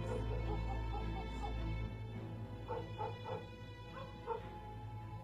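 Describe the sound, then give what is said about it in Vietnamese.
Dogs bark and yip at night in a silent village, giving several short, faint yelps and whimpering calls at uneven intervals over a steady low hum. “Đâu đó chỉ còn có tiếng chó cắn ma nhấm nha nhấm nhẳng vang lên.”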